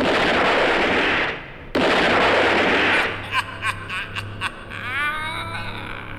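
Gunshots fired by several men: a loud, dense roar of firing, a brief break, then another sustained volley, followed by several separate sharp cracks with short gaps between them.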